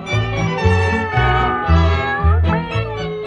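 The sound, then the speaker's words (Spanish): Cats meowing on Paris rooftops, with several loud, drawn-out meows following one another in a fairly even rhythm. “Los tejados de París son famosos por albergar gran cantidad de gatos de todas las razas y colores.”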